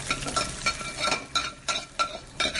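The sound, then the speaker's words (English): Noodle stock is sautéed with bean sprouts and onions before a special tare is added, giving a steady sizzle with a regular rhythm of scraping, tossing stir strokes. “Our stock is then sauteed with bean sprouts and onions and mixed with a special tare.”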